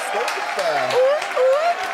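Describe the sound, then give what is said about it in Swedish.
An audience applauds with a continuous patter of clapping, while voices and rising, whooping calls ring out over it. “Kan man få en applåd?”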